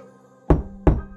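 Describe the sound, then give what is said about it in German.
Two sharp, hollow knocks sound a little over a third of a second apart. They are fairly loud against a faint, quiet hum. “Das Klopfen kam so plötzlich und überraschend, wie es auch in der ersten Nacht kam.”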